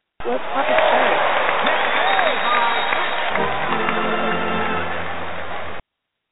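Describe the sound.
Recorded studio audience applause and cheering plays as a sound effect to greet a guest. The clapping and whoops are sustained and loud but muffled, lacking high end, and they cut off abruptly.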